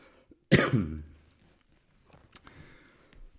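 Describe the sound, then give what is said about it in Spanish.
A cough from a man with a cold: one sudden, harsh, raspy cough that rings briefly and fades, followed by quiet rustling and a few faint clicks. “Como tengo un poco de tos. Estoy un poco resfriado.”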